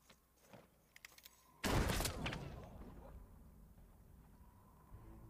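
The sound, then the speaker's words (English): A single loud gunshot cracks out after a few faint clicks, and its sharp blast decays into a lingering rumble. “You're not dead. No. He shot me. It didn't work.”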